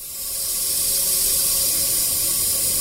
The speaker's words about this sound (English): an abandoned well that was drilled in the 60s is making this noise. The sound you hear is gas venting into the air from some underground rock formation.